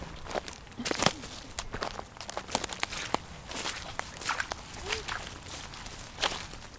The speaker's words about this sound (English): So if you want to grab your things and let's get walking.